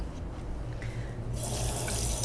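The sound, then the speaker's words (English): Running tap water at a sink as bacon grease is washed off fingers: a steady, fairly loud flowing hiss that grows a bit brighter partway through, with no voices. “All right, wash the bacon grease off my fingers”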